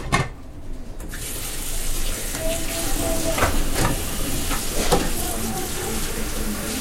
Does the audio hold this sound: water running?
yes